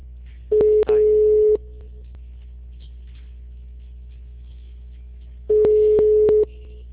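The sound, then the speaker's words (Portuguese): Two ringback tones from a telephone line dialed by an automatic dialer. Each is a steady, low, hum-like tone about a second long, separated by several seconds of quiet line hiss with faint clicks. “Discador parece. Calma, chamou.”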